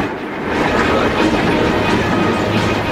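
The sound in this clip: A train rolls past a level crossing, a loud, steady rumble with rhythmic clickety-clack from the wheels on the rails that holds at a constant level for the whole stretch.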